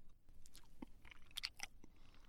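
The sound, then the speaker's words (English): Soft, wet crunching of someone chewing a cherry: a few faint, irregular bites and squelches over quiet background hiss. “This is the finest cherry I've ever tasted.”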